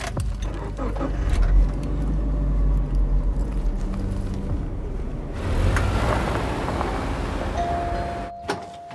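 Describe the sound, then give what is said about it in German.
A car engine rumbles as the vehicle drives off, with broad, steady low road and engine noise that shifts in character partway through and continues to the end. “Fahren Sie los.”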